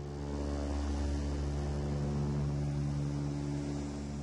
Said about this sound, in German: Die Militärmaschine löst sich vom Asphalt des Flughafens in Bagdad.